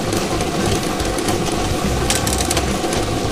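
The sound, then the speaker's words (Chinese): A lottery drawing machine spins thirty numbered balls for a 3D game draw, making a loud, continuous rattling clatter over a motor-like rumble, with sharper bursts of clicking toward the end. “摇奖机正式启动了。 3D 游戏的30个号码球在摇奖机当中飞快地旋转着”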